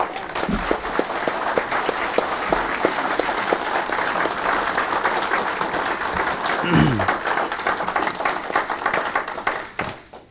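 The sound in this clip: Applause from an audience welcoming a speaker to the podium at an Alcoholics Anonymous meeting: many hands clapping in a dense, steady, fairly loud wash that holds evenly for about ten seconds before tapering off at the very end.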